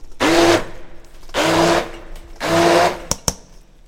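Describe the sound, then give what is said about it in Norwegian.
A stick blender mashes cauliflower and rice for vegetable patties, kept coarse rather than smooth. Three loud whirring bursts with a steady motor hum are separated by short pauses, followed by two brief clicks at the end. “Og så skal jeg bruke en stavmikser. Når du bruker stavmikser, så er det viktig å ikke mose for mye”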